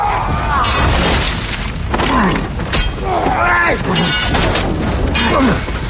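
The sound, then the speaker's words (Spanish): Masonry collapses around a sword fight on a stairway in a fantasy drama, a dense, loud stretch of booming crashes, thuds and rumbling debris with voices mixed in. “En las escaleras, los Clegane combaten entre derrumbes.”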